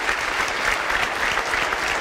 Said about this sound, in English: I think we should give Rosa one more applause.